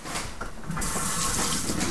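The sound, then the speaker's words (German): Tap water runs into a sink as hands are washed in a Japanese home. A soft trickle swells after a moment into a steady, hissing gush. “Und würdest du deine Hände waschen?”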